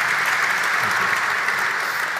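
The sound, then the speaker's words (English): Applause from an audience at an event honouring a chief executive, a steady dense clatter of clapping that holds evenly at full strength for the whole stretch, with no speech over it. “Applause, I would say.”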